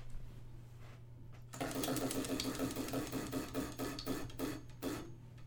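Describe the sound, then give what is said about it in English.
A wheel of questions being spun: a rapid run of ticking clicks that starts abruptly and keeps a quick, even rhythm until it stops, heard alone. “So, okay, on that note then, I will spin our wheel of questions.”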